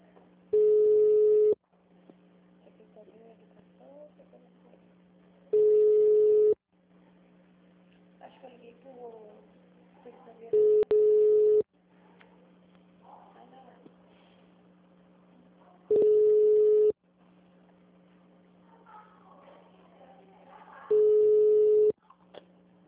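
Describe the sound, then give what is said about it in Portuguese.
Telephone call being placed to the IPMC, heard as five long, steady tone bursts at regular intervals over a low hum, with faint talk between the tones. “Ligando para o IPMC. Eles estão ligando para o IPMC.”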